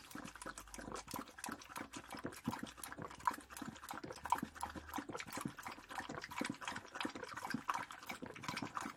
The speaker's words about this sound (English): So we push back, the water flows.